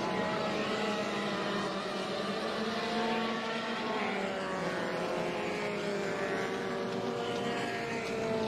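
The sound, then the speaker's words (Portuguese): Racing car engines, including a Puma GTE, drone during a classic car race on a circuit. The roar is steady and loud, with layered whining harmonics, and no talk is heard. “Aí você vai vendo a Puma GTE. Olha só essa briga legal aí, ó. Vão andando juntos ali.”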